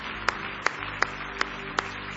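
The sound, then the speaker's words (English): Congregation hand clapping, five evenly spaced single claps in a slow, steady beat, fairly faint over a low background hum. “Give Him another big hand clap of praise if you love Him.”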